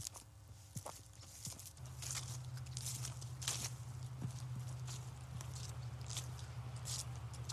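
Footsteps on a fall walk through Nimiipuu homelands: a few soft, scattered steps over a faint, steady background hum, all quiet.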